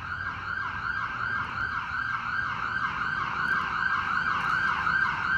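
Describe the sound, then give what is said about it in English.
An ambulance siren wails in a steady, repeating cycle of wavering tone. It stays loud and continuous on its own, without voices. “and the sirens and the ambulances.”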